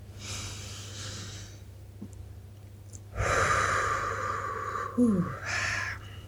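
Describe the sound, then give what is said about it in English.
Deep breathing, slowly drawn in through the nose and let out through the mouth, in a few long, airy breaths. The later breaths are louder and fuller, with no talking. “Take a couple of deep breaths through the nose and exhaling through the mouth, letting out any sighs”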